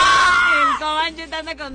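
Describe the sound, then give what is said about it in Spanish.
Loud shouting from two people yelling together, a strained, sustained cry that drops in pitch partway through, then breaks into shorter choppy yells. “Es el momento de mi compa y yo, nuestro momento de gritar, ha llegado.”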